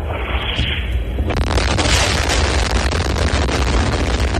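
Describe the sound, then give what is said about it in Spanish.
Heavy explosions from bombs falling in wartime Ukraine near Kharkiv: a loud, dense, continuous low rumble with crackling bursts that thickens sharply after the first second and stays intense to the end. “Donde, como escuchan, tampoco dejan de caer las bombas.”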